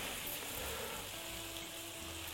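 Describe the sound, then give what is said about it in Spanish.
Soft, steady sizzle of rice frying in oil in a pan before broth is added, a faint continuous hiss with no pauses. “Lo cocinamos un poquito antes de echarle caldo. Es como si friéramos un poquito el arroz en el aceite que tenemos aquí”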